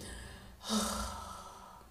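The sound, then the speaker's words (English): Slow exhale by a person doing a breathing exercise: a soft, breathy rush of air that swells, then fades out gradually. “Simon says, exhale slowly.”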